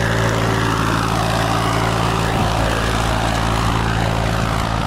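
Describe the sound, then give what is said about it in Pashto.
A tractor engine drones as it ploughs a broad green field, a loud, steady, unbroken roar with a low humming undertone lasting throughout. “خو نه وشت کلن اسلام الدین په یو پراخ شنه ساحه کې په ټراکټر ځکه اړوي او د کالو کو د کرلو لپاره چمتواله نیسي.”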